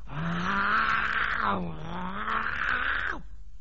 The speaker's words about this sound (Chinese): 这老虎让武松摁着底下不服啊。老虎一劲的吼叫，